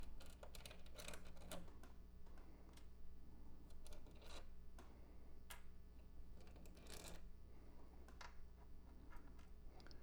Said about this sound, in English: So I'm going to pull out all of these washers.